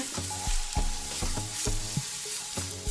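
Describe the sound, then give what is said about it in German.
Onions frying in butter give a steady sizzling hiss, broken by a regular run of sharp stirring knocks and scrapes in the pan. “Man merkt jetzt auch, dass es anfängt so fein zu schmecken nach angebratenen Zwiebeln und Butter.”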